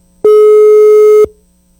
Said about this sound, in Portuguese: Produção, pode ligar. Aí, tá chamando.